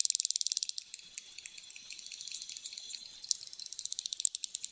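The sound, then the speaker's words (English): Dolphin echolocation clicks, each roughly 100 microseconds long: many sharp, high-pitched clicks in rapid trains whose rate quickens and slows, faint and alone. “To echolocate and navigate the world around them, they send out a series of rapid clicks each roughly 100 microseconds long”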